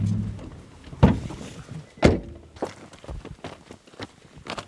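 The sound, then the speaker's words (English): Footsteps fall on burnt pine needles in a fire-blackened cedar forest high in the mountains of northern Lebanon. A few dull, crunching steps land at uneven intervals, with softer scuffs between them over a quiet background. “There are burnt pine needles underfoot as I walk here.”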